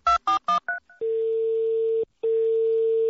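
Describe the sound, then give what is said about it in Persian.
A touch-tone telephone is dialed for a call to a home: a quick run of keypad beeps, then a long steady tone that cuts out briefly and resumes. “در این نخستین روز نوروز به منزل آقای پرویز صیاد زنگ میزنیم تا نوروز رو به ایشون تبریک بگیم.”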